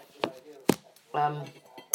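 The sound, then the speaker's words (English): Pots, pans and cutlery clink and clatter in a home kitchen while dinner, a sausage casserole, is being started; a few short metallic knocks and chinks with a brief scraping rattle between them. “I'm about to start making dinner, so excuse the clattering and banging around.”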